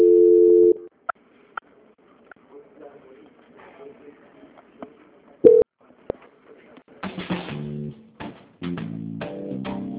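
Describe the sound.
Telephone line tones during a call transfer: a short steady tone opens, then a near-silent line with scattered clicks and faint blips, and finally a run of short stepped tones toward the end.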